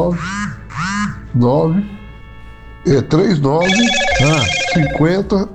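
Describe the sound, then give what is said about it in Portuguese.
A phone message notification chimes over ongoing conversation, a short set of steady electronic tones sitting beneath and between the talking voices. “Tá chegando mensagem aí.”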